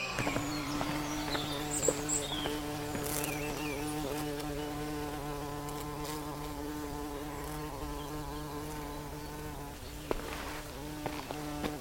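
Bees buzzing in a steady, continuous hum with a clear droning pitch that holds throughout, joined by faint scattered clicks and a few brief louder buzzes as insects pass.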